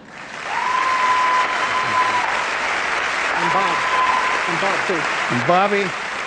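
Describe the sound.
Long, sustained applause from a large audience at the Academy Awards ceremony as an honorary lifetime-achievement Oscar is presented. The clapping stays dense and steady throughout, with a voice rising over it at times.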